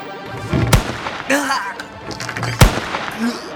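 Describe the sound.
Video game gunshots fired at enemies entering a large hall through several doors: two sharp, loud cracks about two seconds apart, with other noisy game sounds filling the gaps between them.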